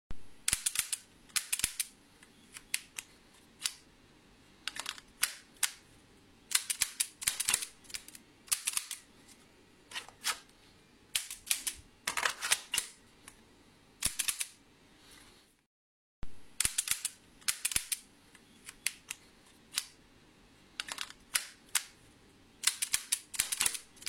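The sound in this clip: Paintball pistol shots: many sharp, dry pops fired in quick clustered bursts, loud and alone, with one brief silent pause partway through before the firing resumes.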